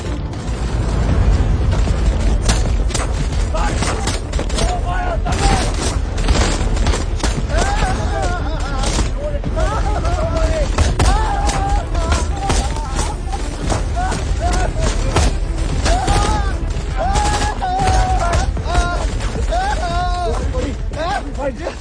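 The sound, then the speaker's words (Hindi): Rapid gunfire and booming blasts from a video game shooter fill a team firefight as cover fire is laid down: dense, loud, unbroken volleys of cracks run throughout, with players' voices talking over the shooting. “Tension मत लो, मुझे cover fire दो।”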